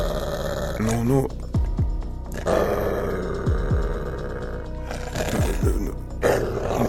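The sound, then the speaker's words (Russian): A guard dog growls at a child's door, the deep rumbling growl building in intensity. Several sharp, sweeping snarls break out over the steady low growl. “Рычание усиливалось, и из тьмы возникла собака, как страж, бросившаяся к двери ребенка. Глаза сверкали, уставившись на него. Рычание не прекращалось.”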